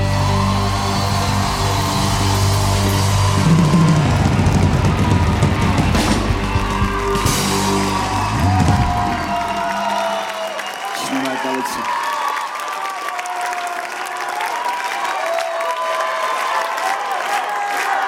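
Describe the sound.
An audience applauds and cheers a band, with heavy clapping and whoops at full strength over a low musical tail. After about ten seconds the clapping thins out and continues more lightly to the end.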